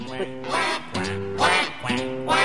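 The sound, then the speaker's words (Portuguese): A person imitates a duck with hands and mouth at a world duck-calling championship, giving a series of nasal, raspy quacks in quick bursts. “Campeonato mundial de chamamento de pato. Usando apenas as mãos e a boca, o competidor imita o som de um pato na tentativa de atraí-lo.”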